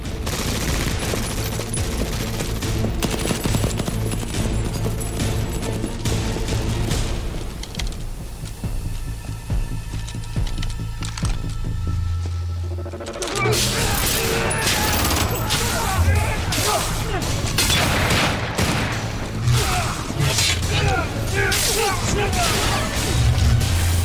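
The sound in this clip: Gunfire crackles in a dense, almost unbroken fusillade of rapid shots, with a short lull near the middle before it resumes, and voices mixed in with the shooting.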